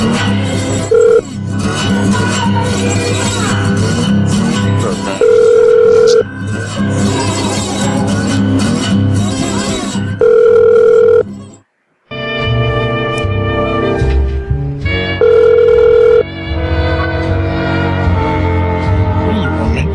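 An unanswered telephone call: a steady ringing tone sounds four times at regular intervals over continuous busy music, with a brief drop-out near the middle.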